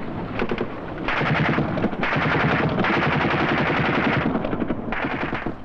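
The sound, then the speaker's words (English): Automatic gunfire from Israeli strong points against attacking Egyptian infantry in the Sinai: loud, sustained bursts of rapid machine-gun shots that rattle almost continuously, with short gaps between bursts. “Israeli strong points opened fire, and some of the Egyptians peeled off to engage them.”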